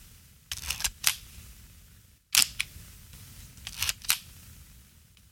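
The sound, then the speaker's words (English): A 35mm film camera shutter exposing one frame: a few short bursts of sharp mechanical clicks and clacks separated by quiet gaps, crisp and fairly faint, with no voices. “That was the sound of one frame of 35mm film being exposed.”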